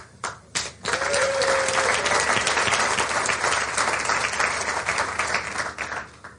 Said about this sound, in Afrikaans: Iemand al ooit so iets moois vir julle gesê. Iemand al ooit vir julle hande geklap.